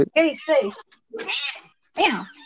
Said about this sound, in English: Kitty, oh my god. Meow. Oh, someone's angry.